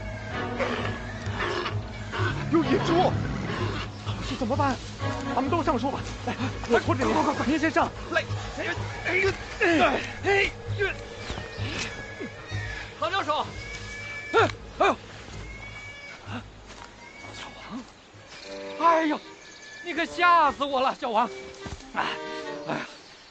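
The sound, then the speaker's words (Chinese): Wild boars grunting and squealing, with rough, harsh calls overlapping densely and continuously at a fairly loud level. “有野猪，唐老师怎么办？”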